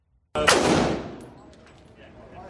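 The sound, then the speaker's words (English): A single loud gunshot from a man shooting a gun: a sharp, sudden blast followed by a long, decaying rumbling tail that slowly fades. “we found a number of videos of the suspect shooting guns”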